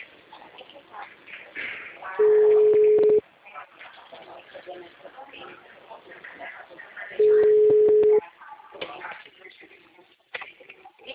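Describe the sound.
An outgoing mobile phone call rings twice, each ring a steady single-pitched tone lasting about a second, separated by a few seconds of people talking.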